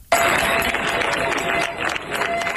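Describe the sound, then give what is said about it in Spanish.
Residents of Niebla applaud departing emergency unit troops after ten days of fighting a wildfire: many people clapping in a steady, dense patter that holds throughout. “Así han despedido los vecinos de Niebla entre aplausos a los efectivos de la UME, que han comenzado su repliegue tras 10 días de lucha contra un incendio”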